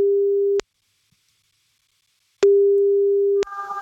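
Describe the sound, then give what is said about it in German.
A telephone line tone while a call is being placed: two long, steady mid-pitched beeps separated by about two seconds of silence, clear and alone. “Sobald sie rangeht, laufen die 30 Sekunden und wir rufen jetzt Sabrina an.”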